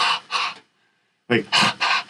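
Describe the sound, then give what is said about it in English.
A voice imitating primate play panting: rhythmic, breathy huffs, two quick ones, a short silence, then a faster run of several more. “The roots of comedy are in play. And play panting, which is really fascinating”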